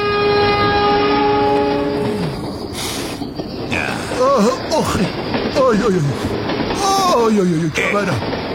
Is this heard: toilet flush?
no